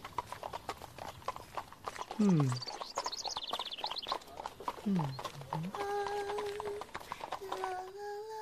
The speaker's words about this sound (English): One day, a prince rode past the castle on his noble steed.